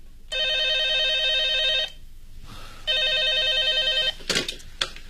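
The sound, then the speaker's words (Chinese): A telephone bell rings in an office, two long, loud trilling bursts separated by a pause, followed by a few brief clattering knocks. “电话铃又响”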